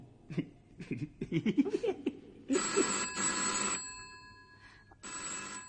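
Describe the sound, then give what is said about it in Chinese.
A telephone rings with a bright, electronic tone in two bursts, the first longer than the second, after a series of short, breathy vocal sounds from a person. “而家八点九噶啦，边个打电话嚟咧？”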